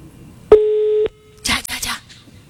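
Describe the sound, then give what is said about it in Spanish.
A single steady electronic beep plays on a phone call, sustained for about half a second. A short burst of voice follows. “Va, está llamando.”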